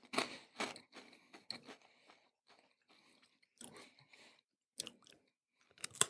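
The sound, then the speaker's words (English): Crunchy chewing on a Japanese seaweed rice cracker, with loud, sharp crunches at the start, then quieter intermittent bites separated by pauses, and a few more bursts toward the end, with no talking. “because this is like Japanese. A rice cracker. Yeah, that's what I know. A rice cracker? Yeah. I think it's seaweed.”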